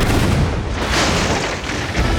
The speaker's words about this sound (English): A cannon shot erupted from the gunsway, but for some reason, it didn't tear into the side of the Fancy.